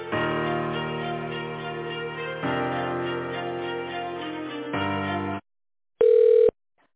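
Telephone ringing tone while a call is transferred to another department: a steady electronic tone runs in three sustained blocks, then after a short gap a single brief, loud tone sounds alone.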